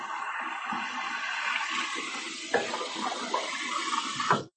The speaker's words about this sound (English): Now I'm getting water for the dog. The dog will appreciate that.